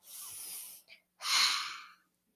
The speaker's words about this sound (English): want to take two more big deep breaths for us?